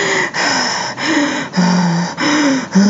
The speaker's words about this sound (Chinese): 威农姨丈重新坐下，大声用力呼吸。